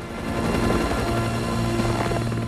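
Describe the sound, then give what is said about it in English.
A helicopter flies as it heads back to refuel, its rotor and engine making a loud, continuous, steady drone with a throbbing texture that lasts the whole clip, with no talk. “The helicopter heads back.”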